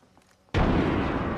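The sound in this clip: A frag grenade blasts in the video game Apex Legends, a sudden loud explosion after a quiet opening, its broad, roaring rumble sustained to the end.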